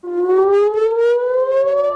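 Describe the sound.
A civil defense air raid siren wails in northern Israel amid rocket and drone attacks: one loud, sustained tone whose pitch rises slowly and steadily, heard alone.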